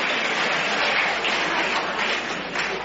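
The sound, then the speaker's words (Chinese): A whole crowd at a table tennis match stands and cheers a player's winning victory, producing a dense, sustained roar of applause and shouting that stays level and sounds dull and muffled. “这是全场观众再次起立为我们中国队员取得最后的胜利而欢呼”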